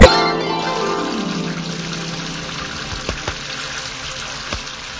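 Water sloshes and trickles as clothes are washed by hand, starting with a sharp splash and settling into a steady wet churn with a few small splashes.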